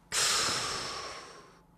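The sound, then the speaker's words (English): A person exhales while faking an inhale into a breathalyzer: one long, forceful breathy hiss that starts suddenly and fades gradually over about a second and a half, with no talk. “take the breathalyzer and exhale, but look like I'm inhaling, and inhale, but look like I'm exhaling. So I sort of went,”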